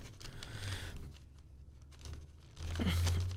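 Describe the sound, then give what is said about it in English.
A dull knife cuts through a sub sandwich, giving a rough, crunchy tearing and crinkling that comes in two louder bursts with a quieter pause between them. “I'm actually cutting this. My knife is not super sharp.”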